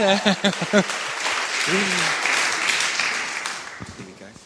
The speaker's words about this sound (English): Let's welcome Louise. Give her another big hand. Come on down,